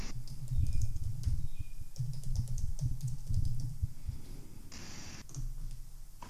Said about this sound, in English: you guys are still tapping away, I can hear